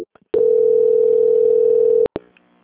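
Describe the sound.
A telephone tone sounds while a call is being transferred: one steady, mid-pitched continuous tone holds for about 1.7 seconds. It then cuts off and two sharp clicks follow.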